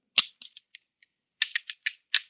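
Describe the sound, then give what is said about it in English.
Small metallic clicks as a firing pin is fitted back into a disassembled pistol: many bright, crisp ticks and snaps in irregular bursts separated by brief pauses, with no talk. “Now, let's see you put back the firing pin.”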